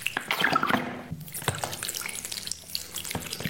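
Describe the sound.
Water leaking from a rug being cleaned: a wet gushing splash at first, followed by many irregular drips and small splatters at moderate level.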